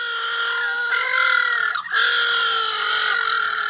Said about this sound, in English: Now, that's the sound of little blue penguins.